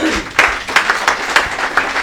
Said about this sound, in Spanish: Fuertes aplausos a ella.